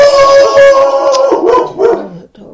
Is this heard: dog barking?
yes